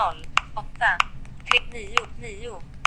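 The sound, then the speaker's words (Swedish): Number keys pressed on a Smart Vision 3 phone to enter a telephone number: several short, sharp clicks with a bright tonal edge, spaced roughly half a second apart, alongside speech. “Så, sen kan jag då bara trycka in ett telefonnummer här på sifferknapparna om jag vill det då.”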